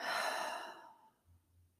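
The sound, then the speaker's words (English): A deep breath through the nose released as one long, airy exhale that starts strong and fades gradually to quiet, alone without talk. “let's go ahead and just take a nice big inhale through our noses. Exhale, relax your jaw.”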